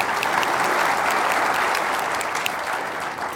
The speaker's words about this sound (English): yes, please, give it up for Lannan.